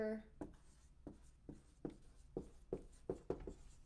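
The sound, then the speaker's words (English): Writing by hand: a faint series of soft, scratchy pen strokes comes at an irregular but steady pace, several short scrapes one after another in a quiet setting. “And I need to write it down.”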